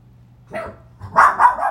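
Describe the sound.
A pet dog barking in a few quick, loud yips, the first one brief and the rest coming close together in a short run.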